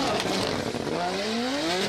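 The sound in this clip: A BMW F22 race car engine on a qualifying run screams at high revs, its loud continuous note climbing steadily in pitch as it accelerates through the gears.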